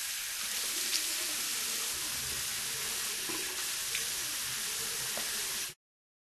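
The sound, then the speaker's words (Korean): Tap water running steadily while someone washes their face, an even splashing hiss lasting about six seconds before it stops abruptly. “세수해야지.”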